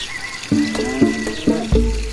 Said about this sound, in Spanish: Voy entonces a llenar el abrevadero.